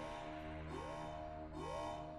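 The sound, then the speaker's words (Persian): A police siren alert sounds as a bright harmonic tone that sweeps upward in pitch twice in a short span, loud over a dense, steady background. “آژیر پلیس.”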